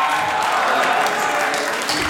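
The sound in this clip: Applause fills the close of Indiana's 2018 legislative session: dense, steady clapping with a hissing texture, holding at a loud, even level from start to finish.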